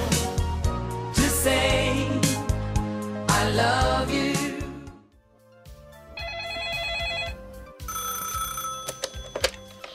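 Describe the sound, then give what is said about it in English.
A telephone rings as part of a voicemail sound effect: bright, repeated ringing bursts near the end, after a busier stretch of mixed sound. “voicemail sound effect and play that”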